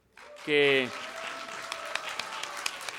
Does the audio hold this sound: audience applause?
yes